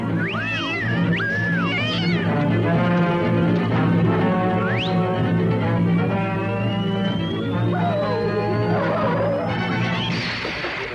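Loud cat meows and yowls from a 1960 animated short: several wavering, harmonic cries come early, and a long, steadily rising whistle-like tone follows, all over continuous background sound.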